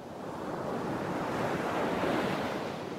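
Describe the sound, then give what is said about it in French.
Waves of a warm sea with many islands wash in a steady, unbroken roar of surf, with wind noise blended in and an even loudness all the way through. “Imaginez une mer chaude et bienfaitrice, une mer aux nombreuses îles.”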